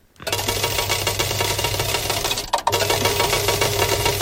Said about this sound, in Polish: My też w tym studiu oddychamy sobie swobodnie, bo pracuje tutaj taki jeden klimatyzator.